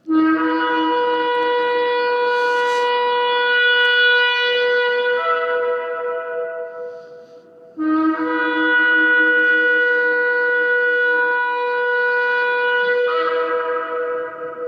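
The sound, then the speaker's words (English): A shofar, a ram's horn trumpet, is blown in two long, loud, sustained blasts with a brief gap between them, each tone rich in overtones and shifting its pitch partway through, with no talking. “A shofar was a trumpet made from a ram's horn.”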